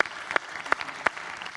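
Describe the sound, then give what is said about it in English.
Auditorium audience applause for a correct quiz answer: a short burst of scattered clapping with a few sharper claps standing out. “Six is correct. Yay. Give her a hand.”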